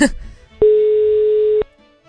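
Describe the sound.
A single steady ringback tone sounds on an unanswered phone call to a village mayor in Berveni, Satu Mare county. The mid-pitched beep lasts about a second, follows a brief voice, and then stops into quiet.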